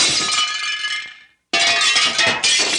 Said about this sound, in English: you hear the sound of breaking glass